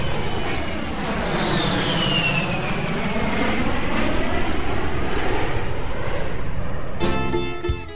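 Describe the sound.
Airplane cabin sound effect for a Greek Airways flight: a steady jet engine roar with a tonal whine that slowly falls in pitch, ending with a few short, sharp clicks.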